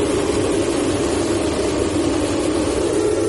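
Formula 1 cars at a race start, their engines a loud, dense, continuous roar with no breaks or clear changes in pitch.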